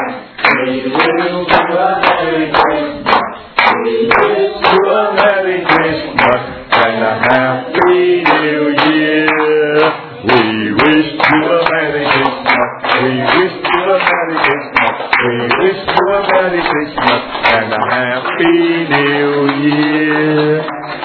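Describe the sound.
Hands clap in a steady rhythm along to a song, the claps cutting through continuous singing voices that fill the whole stretch.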